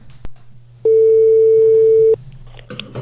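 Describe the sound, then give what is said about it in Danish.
Telephone ringback as a call is placed: a short click, then a single steady mid-pitched tone lasting just over a second, followed by a low background hum. “ring op. Er du klar? Der er lige nummeret.”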